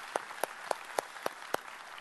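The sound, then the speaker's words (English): Six faint hand claps ring out at an even, brisk pace, each a crisp separate smack with short gaps between, and no other sound stands out. “Yeah, let's applaud him. All kids.”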